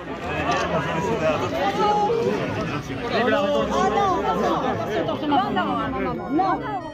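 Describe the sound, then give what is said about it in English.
Crowd noise around French President Emmanuel Macron as a citizen throws an egg at him: dense, overlapping chatter and raised voices that stay loud and steady throughout. “What you heard there was the sound of French President Emmanuel Macron being assailed with an egg flung by an aggrieved citizen.”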